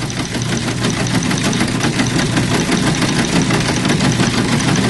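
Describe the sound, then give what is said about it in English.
A Cadillac car engine left running, idling with its lights on. A loud, steady, rumbling drone with a fine pulsing knock runs unbroken throughout, with no voices. “Someone left the engine running and lights on. It is a Cadillac.”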